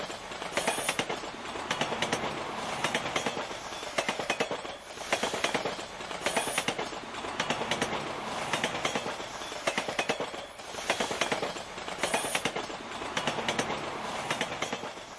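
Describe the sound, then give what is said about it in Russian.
The concertina gangway between train carriages rattles and clatters loudly and steadily over fast, rhythmic wheel clickety-clack, swelling in regular pulses with no voices. “я открыл дверь и вошел в грохочущую гармошку перехода между вагонами.”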